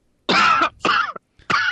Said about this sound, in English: Hey, is someone else coughing instead of me?